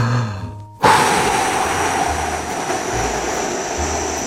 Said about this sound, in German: Jetzt kräftig ausatmen.